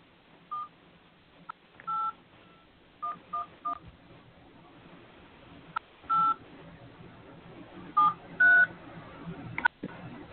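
Touch-tone keypad beeps from a phone dialing into a call-in line: a string of short, clear tones in irregular clusters, some single and some in quick pairs, over a steady faint line hiss.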